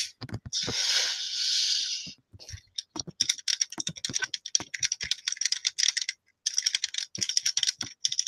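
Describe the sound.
Comments being typed on a computer keyboard: many quick, irregular keystroke clicks in short bursts separated by brief pauses, fairly soft and heard alone.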